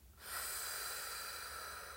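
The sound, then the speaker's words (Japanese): A slow, deep exhale during a relaxation breathing exercise: a breathy hiss starts abruptly and holds evenly for about two seconds, alone with no talk. “はい、じゃあゆっくり吐きましょう。”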